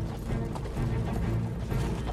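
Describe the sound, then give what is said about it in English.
Roman soldiers of the Ninth Legion marching and riding along a track, with a continuous patter of hoofbeats and footsteps and a faint rattle of gear, steady throughout. “The soldiers of the Ninth Legion march and ride along a track away from the camp.”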